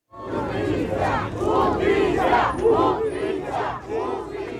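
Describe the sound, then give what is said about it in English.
Protesters in Mexico chant in unison, calling for justice and change after a deadly fire at a migrant processing center in Ciudad Juarez. The loud crowd voices rise and fall in steady, repeated rhythmic phrases throughout. “That was the sound of protesters in Mexico today calling for justice and also for changes”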